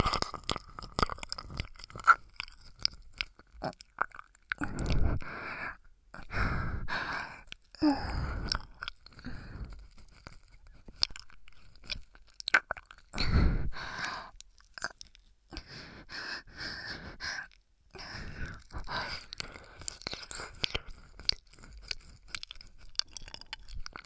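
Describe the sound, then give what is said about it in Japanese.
Wet ear-licking mouth sounds, many irregular clicks, smacks and slurps in quick clusters, soft overall with a few louder bursts and brief pauses between, with no talking. “耳なめなめしちゃうんだから。”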